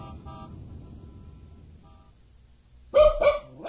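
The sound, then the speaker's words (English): A small dog barks a few quick, sharp, high yaps in a short burst near the end, after a quiet stretch with faint tonal hums. “That dog is small.”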